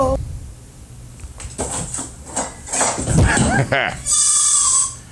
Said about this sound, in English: Is that a goat? Oh, it was a goat. Goats are way cooler. It was a baby goat.